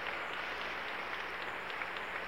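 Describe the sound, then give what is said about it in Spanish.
Soft, continuous applause from a church audience after a scripture reading. Many hands clap evenly at low volume throughout, with no voice on top. “Aplauso a esta palabra, hermano. Aplauso a esta palabra.”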